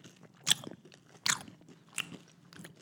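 Crisp bites into pineapple fingers coated with burnt sugar, chili and lime: a few sharp, quiet crunches spaced unevenly, each followed by softer chewing noises.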